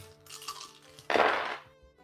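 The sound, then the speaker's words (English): Many dice clattering across a table during a tabletop role-playing game: a light rattle first, then a louder, dense burst of clatter that fades out quickly. “Oh, that's a lot of dice. For real, that sounded like a lot.”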